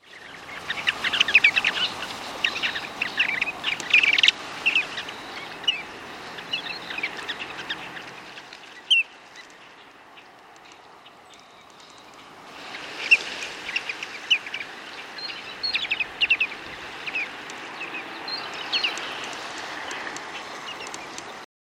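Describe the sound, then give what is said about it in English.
Ring-necked duck calls: many short, high chirping notes in two dense bursts separated by a quieter pause of a few seconds. “Ring-necked duck.”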